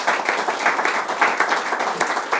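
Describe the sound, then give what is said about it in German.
An audience applauding two panelists as a conference session wraps up, many hands clapping in a brisk, continuous patter that pulses slightly in loudness throughout. “Erstmal Applaus für Sie beide, bitte.”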